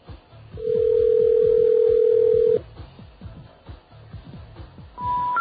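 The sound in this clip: A steady telephone dial tone hums on an old phone line for about two seconds while a disconnected number is dialed, followed by quieter low rumbling and then the start of higher tones near the end.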